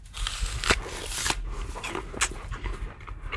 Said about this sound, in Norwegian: Du smaker på et surt eple.